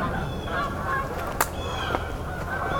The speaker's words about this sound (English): We've got some Canada geese here.